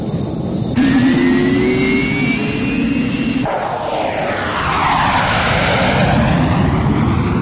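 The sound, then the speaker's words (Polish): A small airplane takes off from a runway at Toruń. Its engine gives a loud, continuous roar with droning tones that shift. Midway through, the sound changes and the tones sweep downward. “jesteśmy na pasie startowym. Prosimy o zgodę na lot.”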